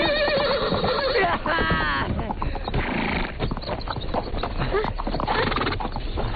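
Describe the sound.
A ridden horse clip-clops and gives a high, wavering neigh early on. The hoof beats keep up a busy rhythm throughout, mixed with loud voices and other overlapping sounds.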